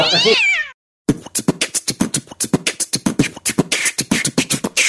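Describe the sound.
A cat meows: one loud, drawn-out meow with a falling tail. After a brief silence comes a long run of rapid, regular clicking pulses.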